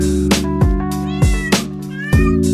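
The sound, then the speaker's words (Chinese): A cat meows about five times in quick succession. Each call starts sharply and carries sweeping harmonics, heard over a steady low droning background. “这一只猫，是我的猫。”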